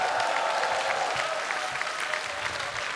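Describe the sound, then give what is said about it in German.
Audience applause at a live music show, given as a special round for the sound technicians: dense, steady clapping that holds at an even level for about three seconds. “Ich möchte um einen Spezialapplaus bitten für das großartige Technikteam, das diesen herrlichen Sound heute hier macht.”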